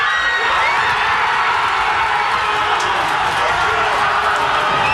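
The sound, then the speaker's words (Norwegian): Crowd in Hammerfest cheering as Norway advances at the World Championship, a loud, unbroken mass of shouting, whooping and high children's voices sustained throughout. “Ja, det var både allsang, roing og full jubel i Hammerfest.”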